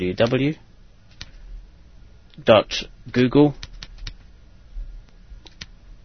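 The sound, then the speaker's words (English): Computer keyboard typing into a web browser's address field, a few sparse, faint key clicks scattered between stretches of speech. “but I'm just going to type into here”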